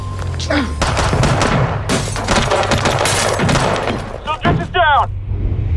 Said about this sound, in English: Who's shooting? Can you see?